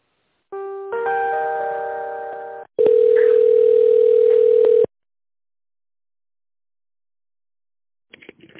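Electronic telephone line tones while a call is transferred to another person: a long harmonic tone, then a steady, insistent single tone that stops abruptly, followed by silence and a brief faint noise near the end.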